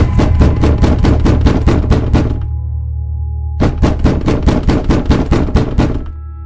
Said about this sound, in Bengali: বাইরের দরজায় কারা যেন মহা ধাক্কাধাক্কি আর চেঁচামেচি করছে